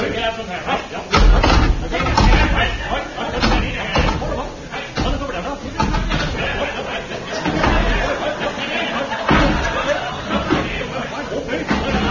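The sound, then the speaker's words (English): Wooden chairs being stacked one on top of another, many hollow clunks and knocking thuds at an uneven pace, mixed with people talking throughout. “the sound you are hearing is that of Seagoon and Eccles balancing chairs one on top of the other. This operation might last some time, as they will need to stack at least 50 to 100 chairs”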